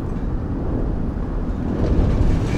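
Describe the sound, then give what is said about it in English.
Deep, steady rumble of an aircraft shuddering in flight: dense low-frequency roar with a rough, trembling texture that holds fairly even throughout and swells slightly near the end, with no voices. “He leaves as the aircraft shudders.”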